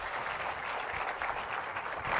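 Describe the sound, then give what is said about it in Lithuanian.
Audience applause welcoming a businessman guest to an evening talk event, a dense, even patter of many hands clapping that holds steady throughout and swells slightly at the end, with no voices over it. “Pasitikime, plojimais.”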